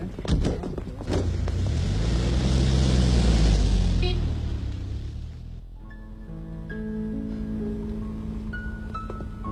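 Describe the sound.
A car driving off: a loud engine-and-tyre roar swells to a peak, then fades away as the vehicle leaves, giving way to a quieter, steady background.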